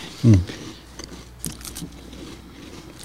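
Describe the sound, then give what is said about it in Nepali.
Someone bites into a biscuit with a single short, loud crunch, followed by only faint small sounds. “Thank you so much for the biscuit म त एउटा खाएँ ल हस् म पनि लिएँ”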